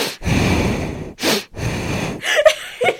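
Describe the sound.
A person with asthma breathes loudly and heavily in three long, rough, airy breaths. A few short sharp sniffs and snort-like gasps follow at the end, with no speech.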